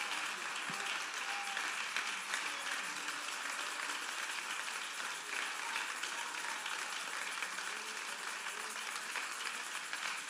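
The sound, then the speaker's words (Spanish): Steady applause from a church audience praising the Lord at a bilingual service, a faint, even wash of clapping that lasts about ten seconds with no voices over it. “Dale aplauso fuerte al Señor. Give a strong hand praise to Lord Jesus Christ.”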